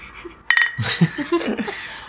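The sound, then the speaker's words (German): Beer glasses clink together in a toast, one bright, brief ring followed by lively voices and chatter. “was wir vergessen haben, ist Anstoßen. Anstoßen. Auf das Wetter.”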